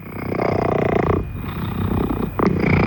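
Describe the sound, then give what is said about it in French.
A two-year-old cat purrs in a loud, continuous low rumble with fine rapid pulses. The purr dips briefly near the middle and then resumes. No one talks over it. “Titi, c'est un chat, il a 2 ans”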